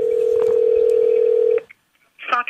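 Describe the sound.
A steady telephone dial tone on an international call to a US intelligence agency holds alone for about a second and a half, then cuts off into a short silence before a brief burst of line sound.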